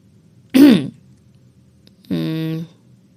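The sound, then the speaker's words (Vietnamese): A woman clears her throat with two short, throaty voiced bursts separated by a brief pause, the second steadier and more tonal than the first, heard alone against quiet. “Cô đằng hắng một tiếng khiến giọng mình hơi nháo”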